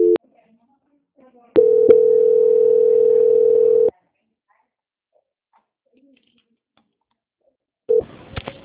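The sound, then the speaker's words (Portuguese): A telephone call transfer tone plays as a steady, mid-pitched electronic hum lasting a couple of seconds. Short beeps come before it, then a long silence, then another brief beep at the end. “Transferência.”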